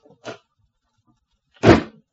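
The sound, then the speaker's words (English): A door slams shut hard: a faint, short knock comes first, then one loud, heavy bang that dies away quickly, with no voices. “She slammed the door nearly as hard as she'd slapped my face.”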